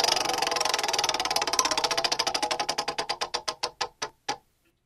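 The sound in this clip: A spinning prize wheel ticks rapidly at first, then slows into widening, sharper clicks that stop after a last tick, leaving silence.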